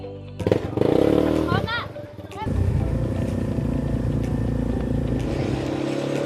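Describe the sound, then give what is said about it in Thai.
An ATV is driven through water and mud on an adventure trail into the forest: an opening burst of noisy clatter gives way to a loud, steady engine roar that continues to the end. “อันนี้นะครับก็เป็นบรรยากาศของการขับรถ ATV นะครับ Adventure นะครับฝ่าน้ำลุยโคลนนะครับเข้าป่านะครับ”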